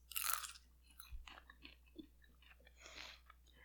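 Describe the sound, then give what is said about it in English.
Quiet, crunchy chewing of stale popcorn, with a few separate crisp bites and crunches spaced across a few seconds, with no talk. “It just tastes like stale popcorn. It was just popcorn, but it made me feel bad about myself while I ate it.”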